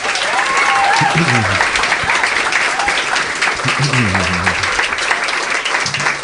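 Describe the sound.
Loud audience applause greets a guest coming on stage, the dense clapping holding steady throughout while a few voices call out underneath.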